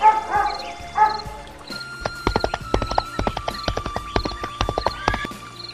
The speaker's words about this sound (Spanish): El latir de los perros y el galope de caballos.